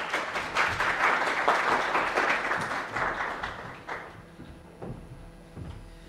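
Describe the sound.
Audience applause welcoming a speaker to the stage at an event in D.C.: dense, sustained clapping fills the first four seconds, then thins out into scattered claps and fades.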